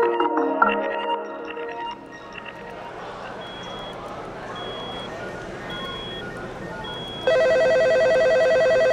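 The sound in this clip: An office telephone rings with an incoming call. A loud, steady electronic ring with rich buzzing overtones starts near the end, after a murmuring stretch with faint, repeated high beeps.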